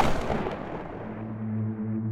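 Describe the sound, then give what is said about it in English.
A single shotgun warning shot of buckshot bursts out at the very start as a broad, rough blast that quickly decays, followed by a low, steady droning hum. “He cocked his firearm, raised it, and then he pulled the trigger.”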